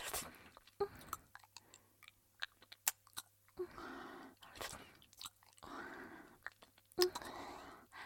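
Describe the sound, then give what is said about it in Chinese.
Faint, soft chewing and crunching from a child being fed by an adult, coming as a few irregular wet bursts with quiet gaps between them. “那就多吃一点，知道吗？阿姨再继续喂你啊。”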